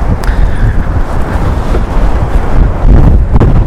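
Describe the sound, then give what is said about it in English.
Strong wind in the Peak District buffets the microphone with loud, low, roaring gusts that rise and surge throughout. “The wind is literally trying to blow me over.”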